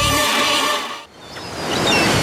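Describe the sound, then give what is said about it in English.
Ocean waves break in a sunny surfing scene, a broad, loud rushing surf that drops away briefly near the middle, then swells back up into a strong hiss. “Perfect waves, sun shining, the board's waxed”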